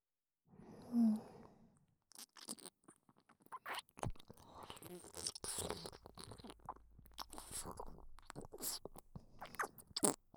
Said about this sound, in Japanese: 私の体に入っていくその音。じゃあ、いただきます。